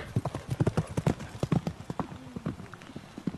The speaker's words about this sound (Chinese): 刘备来不及向刘表告辞，趁人不备跨上的卢马，直奔无人把守的西门而去。